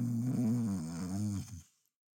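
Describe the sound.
A single drawn-out, low, voiced snore, apparently imitated by a voice, rough and rumbling for about a second and a half before fading out, faint overall.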